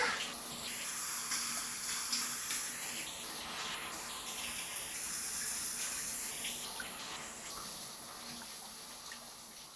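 Shower water running in a steady, continuous hiss of spray, fairly faint and even throughout, with no voices.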